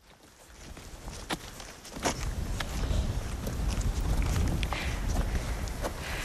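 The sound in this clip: Footsteps walking up a farm track in the Burren, a series of irregular steps amid gusty wind rush that grows louder after the first two seconds.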